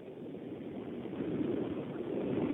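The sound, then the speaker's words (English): Motorboat engine giving off a steady, broad low rumble that holds throughout and grows slightly louder toward the end, with no voices over it. “Hold on a second. I'm competing with a motorboat. Hold on.”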